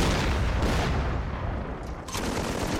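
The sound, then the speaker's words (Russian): Artillery shells explode near a train in a dense, continuous roar of blasts and rumble, with a few sharper bursts standing out from the heavy barrage. “Возле состава взрываются снаряды.”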